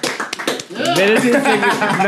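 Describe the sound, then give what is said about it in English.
A few sharp hand claps ring out at the start, followed by people talking loudly over them. “Clap.”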